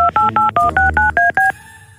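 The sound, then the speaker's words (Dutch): Telephone keypad tones dial a number as eight quick dual-tone beeps in a steady, even rhythm, loud and alone, then trail into a faint hiss. “Ah, we gaan gewoon bellen.”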